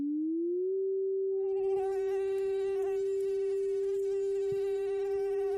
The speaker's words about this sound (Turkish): Sivrisinek vızıltısı 385 Hz.